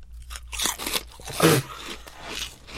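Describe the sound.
Crisp crunching and chewing of a shrimp-flavored snack, many dry crackles with one louder crunch near the middle and no talk.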